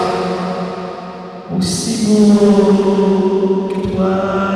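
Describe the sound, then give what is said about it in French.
A recording drenched in heavy reverberation, its sustained tones smearing and ringing on with a long, washy tail. “Il y en a de la réverbération là-dedans. Il me semble que c'est exagéré, madame.”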